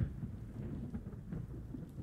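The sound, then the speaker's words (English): Low, steady rumble of thunder from a storm outside rolls on without a break. It stays fairly faint, with no voices. “Oh, it's getting stormy out there.”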